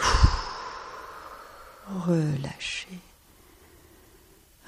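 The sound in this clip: A long, breathy exhale during a guided relaxation exercise, soft and gradually fading, followed by a brief voiced sound and then quiet.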